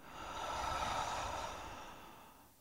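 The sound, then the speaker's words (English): A slow, deep breath is drawn in through the nose and sighed out through the mouth. It is soft and airy, lasts about two and a half seconds, and no one speaks over it. “Take a deep breath in through your nose and sigh through your mouth.”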